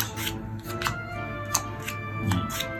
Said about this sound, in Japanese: 使いますか。魂を使う4つに分けます。 じゃじゃん。 みんな3枚ずつ配ります。